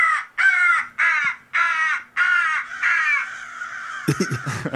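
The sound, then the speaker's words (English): Crow distress calls played back to scare birds away: a rapid series of about six loud, harsh, raspy caws separated by brief gaps, running into a longer drawn-out call and ending in a rough, noisy burst. “And you've also got sounds like this one. It's a crow in distress to scare the birds away.”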